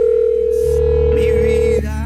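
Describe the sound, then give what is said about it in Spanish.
A steady telephone tone sounds as a WhatsApp call is dialed. It holds loud and unbroken for nearly two seconds, then cuts off abruptly, with faint clicks and shifting sounds beneath it. “Así que vamos con otro oyente, así que vamos a marcar a esta hora nuestro WhatsApp Bésame.”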